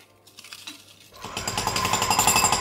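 Construction site noise plays in a television studio. A rattling jackhammer-like pounding starts softly, then after about a second swells into a much louder, dense, continuous rapid hammering with metallic clatter.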